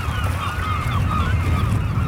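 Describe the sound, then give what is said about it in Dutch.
Seagulls call as they lift off the water while a fishing cutter cuts through the floating flock. Wavering squawks repeat over steady wind noise and a low engine rumble. “Ik loop even naar het voorplecht om te zien hoe die meeuwen die allemaal op het water dobberen opvliegen als de kotter er dwars doorheen vaart en samen een grote zwerm vormen in de lucht.”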